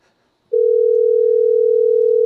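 A telephone dial tone before calling someone back: a steady, loud, single-pitched hum that starts abruptly and holds unchanged to the end, with no talk.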